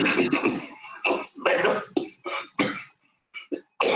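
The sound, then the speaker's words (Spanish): Repeated coughing and throat clearing from a speaker in the middle of a talk: a run of many short, harsh bursts separated by brief gaps, fairly loud, with a few smaller bursts near the end. “Perdón por la tos”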